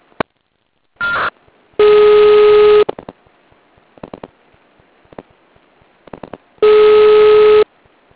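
Telephone line tones after a dropped call: two long, steady electronic beeps of about a second each, set apart by silence and scattered clicks, with a shorter burst near the start.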